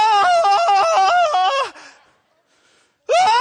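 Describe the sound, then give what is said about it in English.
A person re-enacts screaming during a slow four-wheeler rollover, with a long, loud yell that pulses in stepped bursts, a stretch of near silence, then a second scream starting to climb in pitch. “it took so long to turn over, I had two full screams, right? I'm like,”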